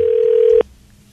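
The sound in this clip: A telephone tone sounds as a number is dialed and the line rings. A single steady, mid-pitched tone holds loud and even for about half a second, then cuts off abruptly into near silence.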